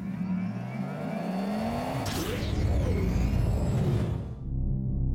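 A novelty forecasting machine is fired up and sounds like a car engine revving. A rising whine climbs into a loud, sustained mechanical whir that carries on, with no voices over it.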